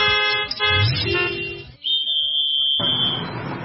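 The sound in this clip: A motor vehicle's horn honks while it is driven, sounding a few sustained, buzzy blasts over a low engine rumble, with a thin whistling tone between them.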